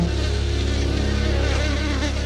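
Hornets buzzing in a loud, continuous drone, a steady low hum topped by wavering higher overtones, with no voices over it.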